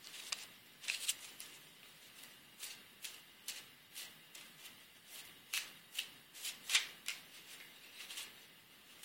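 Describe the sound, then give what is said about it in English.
Oracle cards being shuffled and pulled: many soft, irregular snaps and flicks of card stock, faint and crisp, with short pauses between bursts. “we're going to pull the synthesis card first instead of going straight to the up-leveling focus.”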